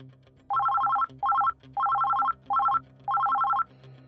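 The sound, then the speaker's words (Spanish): A telephone rings at home with an incoming call in five trilling bursts of uneven length, bright and warbling over a faint low hum. “Todo parecía ir bien hasta que en casa de Rebeca y Charlie, recibieron una llamada ya a punto de sentarse a la mesa.”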